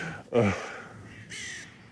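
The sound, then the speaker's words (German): Crows cawing: two harsh, raspy caws, the first louder and the second a little thinner, separated by a short gap over a faint steady background. “Die Krähen beschweren sich auch schon.”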